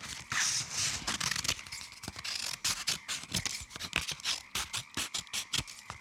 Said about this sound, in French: maintenant je prends les ciseaux. Et c'est parti. Je découpe tout ce qui est arrondi.